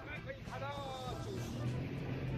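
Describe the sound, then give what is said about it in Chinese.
A jet ski's motor drones on the water beneath loud, excited talking. The engine hum stays steady and low under the voices. “各位听一下这个声音，哇，问一下教练，这个摩托艇能够开多大的马力？”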